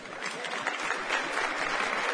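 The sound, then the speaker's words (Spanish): Audience applause between songs at a live music performance, a steady, even wash of many hands clapping, fairly faint and without talk over it. “Un aplauso para ellos.”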